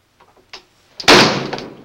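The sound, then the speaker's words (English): An interior door is shoved closed with one loud, sharp slam. A few faint shuffling and handling sounds come just before the impact, and the slam's noisy crash decays over the following moment. “He starts to close the door, stares at Anne, then shoves it closed.”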